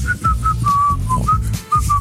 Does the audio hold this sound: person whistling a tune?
yes